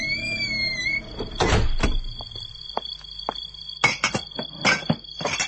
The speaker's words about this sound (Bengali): দরজার তালাটা হঠাৎ কেন জানি নড়ছে, ঠাস ঠাস করে বাড়ি খাচ্ছে।